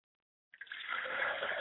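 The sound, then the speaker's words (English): Liquid poured out as a libation during a blessing ceremony: after a short silence, a steady splashing stream begins and runs continuously at an even, moderate level to the end. “I pour libations to the north and then the south.”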